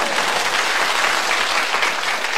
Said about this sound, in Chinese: 这些鼓掌的人都非常有学问